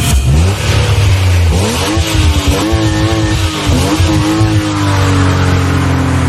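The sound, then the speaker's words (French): A motorized vehicle accelerating as on a racing circuit: a loud, continuous engine roar whose pitch climbs repeatedly in rising sweeps as it runs up through the gears. “Le son mystère à retrouver ce matin, bah, c'est un engin motorisé qui se conduit, ça roule.”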